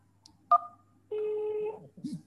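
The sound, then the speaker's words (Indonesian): A telephone keypad tone sounds as one is pressed to accept a call: a short, clear beep, then a longer steady tone, with a brief low sound at the end. “Tekan satu untuk menerima panggilan.”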